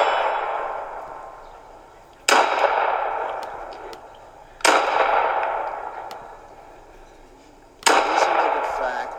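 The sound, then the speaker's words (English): Three loud, sharp pistol shots from a SIG 228, evenly spaced several seconds apart, each cracking sharply and then ringing off in a long, slowly decaying tail. “I'm shooting a SIG 228 for the very first time.”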